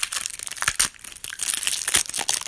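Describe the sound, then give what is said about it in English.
Plastic sleeve wrapping on a card deck is torn open: a continuous crinkling, crackling rustle with several sharper tearing bursts, running loud for about two and a half seconds with no voices. “Tearing in this plastic.”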